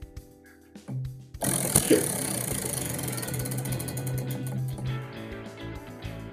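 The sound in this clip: A prize wheel spins on a sports talk show, giving a sustained, loud ratcheting clatter of many quick clicks. Quieter handling sounds come first, then the clicking runs on for several seconds.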